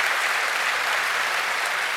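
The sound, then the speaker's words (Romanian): Audience applause at a televised show: dense, steady clapping that holds at an even level for the whole stretch, with no talk over it. “Aplauze pentru Mircea Joană.”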